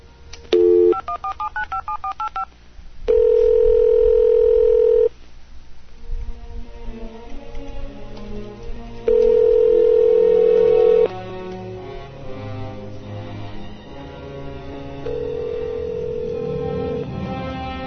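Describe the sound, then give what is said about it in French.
A telephone keys in a mobile phone number with a quick run of touch-tone beeps. Two long, steady ringing tones follow, separated by a pause, with quieter tonal sound lingering in between and afterward. “Donc, on va composer son numéro. Donnez-moi quelques secondes. On ne le dira pas en ondes, bien entendu. C'est sur son cellulaire”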